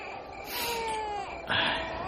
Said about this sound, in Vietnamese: Thằng nhỏ nhè nhẹ cứ khóc hoài, hai thà dỗ hết sức mà nó không nín.